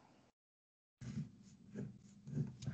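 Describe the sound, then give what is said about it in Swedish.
Pen scratches on paper as hockey players' names are jotted down, faint scraping strokes in short bursts after a brief silence. “ja bara skriva upp namn här”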